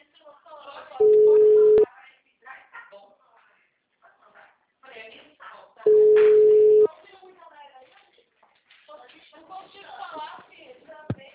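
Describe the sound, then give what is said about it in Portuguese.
Telephone tone after a dropped call: two long, steady low beeps about five seconds apart, with people talking around them. “caiu a ligação, tá me ouvindo agora?”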